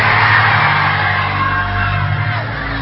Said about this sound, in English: let me hear you shout, say, get out!